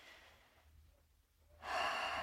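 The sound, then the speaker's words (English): A slow, deep breath drawn in through the nose and let out through the mouth: a faint, soft inhale at first, then a louder, steady rush of exhaled air that fills the second half. “take another inhale in through the nose, out through the mouth, and just letting any tension, any excitement,”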